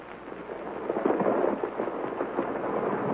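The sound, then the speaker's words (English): Steady crashing roar as a peninsula collapses into the ocean after men fire on a spur of a fault line at its base. The dense rumbling noise holds fairly even throughout, swelling slightly in the middle with no distinct shots. “There is a small spur from the main fault, which runs directly across its base. I have just instructed my men to fire at it.”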